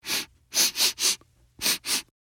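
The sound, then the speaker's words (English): Six loud, breathy sniffs as someone in the role of a giant sniffs the air, in an uneven rhythm: one sniff, then a tight run of three, a short pause and a final pair, with no talking. “Then he starts sniffing the air.”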